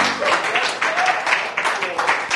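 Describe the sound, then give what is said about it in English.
A seated church audience claps their hands for the Lord, many sharp claps landing in a loose repeating pulse, with voices mixed in beneath them. “Clap your hands for the Lord as you're seated.”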